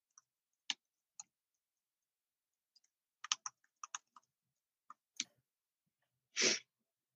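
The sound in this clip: Typing on a computer keyboard during a cybersecurity software demo: sparse, faint keystroke clicks in irregular clusters with quiet gaps, ending in one longer, noisier burst.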